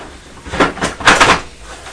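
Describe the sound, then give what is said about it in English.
A small boy pushes an envelope through a front-door letterbox, making a few short papery scrapes and flap clatters in quick succession. The sounds are moderately loud, with no voices. “A little boy's just pushed an envelope through the door.”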